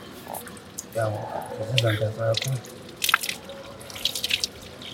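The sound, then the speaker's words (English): Tap water splashing and dripping over hands during wudu ablution, intermittent wet splashes and drips following a stretch of a person speaking. “start with washing your hands.”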